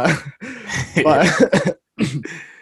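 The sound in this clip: Coughing and throat clearing from a person with a hair caught in the throat: several rough, raspy bursts in quick succession, then a short silent pause before a final hacking clear.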